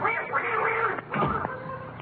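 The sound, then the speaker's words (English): A duck quacks in two harsh, nasal bursts, one longer and one shorter, with a short gap between them. “That duck out there just hit me on the ankle.”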